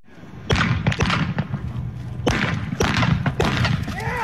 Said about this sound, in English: if you've never heard of the sport of mounted shooting, take a listen to this.